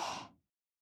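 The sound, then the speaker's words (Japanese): A single deep breath is drawn in through the nose during a guided breathing exercise. It is a soft, airy rush that fades out within half a second and is followed by silence. “まずは深呼吸。鼻から大きく吸って、”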